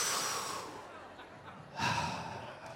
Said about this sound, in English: Hang on, I got to take a breath again.